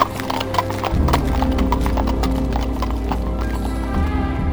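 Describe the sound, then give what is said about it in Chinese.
Horse hooves clip-clop in a quick, regular rhythm as a horse-drawn carriage drives off, loud and steady for several seconds with no voices. “警察也不多做说明，就把他们带上马车，向郊区行驶而去。”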